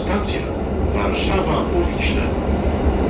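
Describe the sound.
A train crosses a steel bridge over the Vistula, a continuous rolling rumble with a rattling, hissing wash that stays steady and dense throughout.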